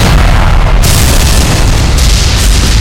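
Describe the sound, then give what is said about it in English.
Deep, rumbling explosion roar from nuclear missiles detonating, a loud continuous wall of low booming noise that holds steady for the whole stretch without separate blasts. “Some went off in the oceans or devastated the wrong areas, but 700 of the missiles went off,”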